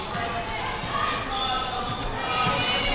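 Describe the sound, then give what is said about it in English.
Basketball dribbled live on the right wing during a women's game: a few dull bounces under steady crowd noise and arena hubbub. “Live dribble right wing.”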